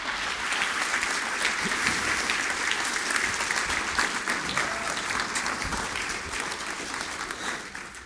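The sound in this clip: An audience at a JCCSF literary event applauds to welcome two writers on stage, a dense, steady patter of clapping that holds for about eight seconds before tapering slightly at the end.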